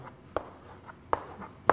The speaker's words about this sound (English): The way we might declare that was by writing something like int grid